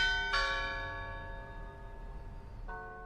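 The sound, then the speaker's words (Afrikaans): Two strikes of a clock-tower bell in Pretoria, South Africa, on a tower whose four clock faces are not yet working: each stroke rings out with bright overtones that slowly decay, the second coming about two and a half seconds after the first, fairly faint. “De Plooi sê die oorlosie gesigte werk nog nie, maar dat die klok op die regte tye reeds lui.”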